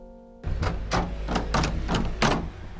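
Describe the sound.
Someone tries a locked door at a church on Nørrebro: a series of about six dull rattling thunks in quick, uneven succession, moderately loud and without talk.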